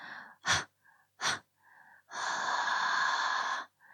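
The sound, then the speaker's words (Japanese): A woman breathes heavily, exhaling breath onto the listener's nose. Two short, sharp breathy huffs come first, then one long, loud, hissing exhale, with faint soft breaths between them. “臭い息、鼻先にいっぱい吐きかけてあげる。”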